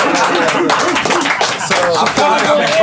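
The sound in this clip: A crowd makes noise and claps: steady, loud applause mixed with cheering voices.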